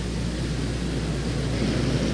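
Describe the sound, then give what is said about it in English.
Steady, loud engine roar from hot rod racing lawnmowers with flathead, side-valve single-cylinder engines in a qualifying heat on a very short track. Several machines drone together as one continuous, rough, buzzing noise. “This is a heat race for qualification for the flathead lawnmowers. Hot rod lawnmowers powered by flathead engine, side-by-side pocket valve, single cylinder.”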